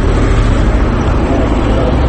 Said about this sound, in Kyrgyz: Аны көрүп атпайсызбы? Мына кетти дагы. КамАЗ маркасында кетти.